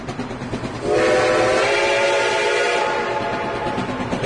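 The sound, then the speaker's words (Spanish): A train runs with its horn sounding: a steady, loud harmonic horn blast starts about a second in and holds to the end over a rolling rail rumble. “Écheme el tren que nos trae hoy muchas nostalgias. Ahí está.”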